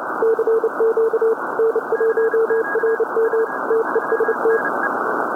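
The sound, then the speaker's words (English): Two overlapping CW Morse code transmissions on a radio receiver: a steady mid-pitched tone keyed in quick dots and dashes over constant hiss, with a fainter, higher keyed tone running underneath. “Listen to this signal and notice that you can hear two separate CW transmissions at the same time.”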